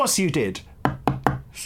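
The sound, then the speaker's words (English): A large, very hard fossil tooth from an extinct shark species is knocked on a table three times, giving crisp, evenly spaced clicks right after a short stretch of talk. “That was the sound of the fossil shark tooth on the table.”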